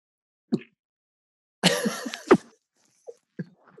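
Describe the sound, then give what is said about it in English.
A voice imitates a morning asthma cough: one rough, breathy burst ending in a sharper hack, with a few faint short sounds around it. “So it's like a sort of cough.”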